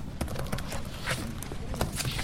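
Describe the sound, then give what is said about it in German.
Typing on a notebook computer keyboard: a steady run of many light, uneven clicks over a soft background. “Kim tippte auf ihrem Notebook herum.”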